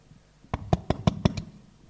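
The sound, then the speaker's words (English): Six evenly spaced knocks on a door in quick succession, each sharp and fairly loud, over a low, quiet background. “God comes and knocks on his door.”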